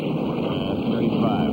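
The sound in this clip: Aircraft engines run at high power on an ice-laden propeller plane, giving a steady, loud, dense drone with a rough low rumble and a hiss of rushing air, unchanging throughout.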